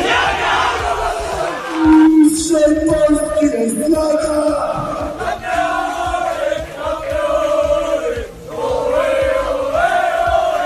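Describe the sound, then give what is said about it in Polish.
Loud group chant from a football team celebrating a championship in the locker room, many voices shouting campeones together, sustained and energetic almost throughout with a brief dip near the end. “Jak słychać, szatnia w dużej części hiszpańska, więc jest mistrz i campeones.”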